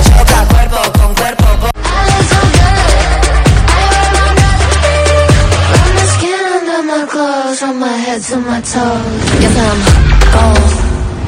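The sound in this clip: A loud, dense pop track with a steady, punchy beat and layered melodic lines. Partway through, the low end and drums drop out briefly, leaving sustained sung or synth melodies before the beat returns.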